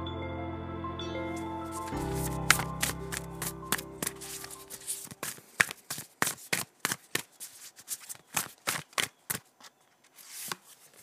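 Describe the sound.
Tarot cards are shuffled for a card pull. After sustained tones fade out, many sharp, crisp riffles and taps follow in an uneven rhythm.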